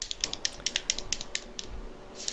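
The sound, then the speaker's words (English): Faint, rapid clicking of game controller buttons, many light plastic taps in a fairly steady rhythm with brief pauses, heard alone without talk. “I'm hearing controller sounds or something.”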